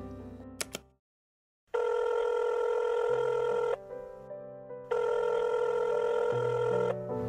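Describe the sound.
Ringback tone of an outgoing phone call: a few clicks, a short silence, then two long, steady, bright ring bursts with a pause between them. Faint low tones continue underneath.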